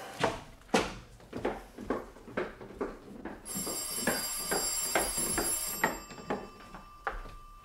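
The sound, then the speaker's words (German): A telephone ringing in a crime drama scene: a long run of regular, rhythmic ringing pulses, with a bright steady tone layered in partway through. “Das Telefon. Ich gehe schnell runter.”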